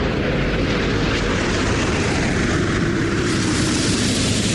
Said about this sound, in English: Space Shuttle Atlantis now traveling 389 miles per hour. It is now on final approach to the Kennedy Space Center. Its speed now 320 miles per hour.